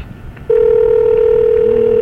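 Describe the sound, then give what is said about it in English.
A steady telephone line tone cuts in abruptly after a brief stretch of faint line hiss and holds at one constant pitch, loud and unbroken, while a call to Port Jefferson is being placed. “I'm calling Port Jefferson.”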